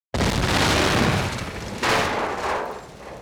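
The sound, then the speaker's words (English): A jeep blows up from grenades: a loud booming blast hits suddenly, then a second heavy boom follows. Roaring, rumbling noise trails off afterward. “The Jeep exploded.”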